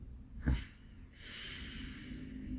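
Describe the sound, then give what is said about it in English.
Breathing during a guided relaxation exercise: a short, sharp in-breath, then a long, smooth, steady exhalation of soft airy noise, quiet and without talk. “Let's take a nice in-breath and then long, smooth exhalation.”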